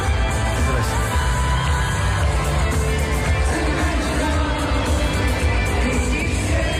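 A concert audience sings, cheers and shouts as big inflatable balls are thrown into the crowd. The roar is dense and steady, with whoops and yells mixed in throughout.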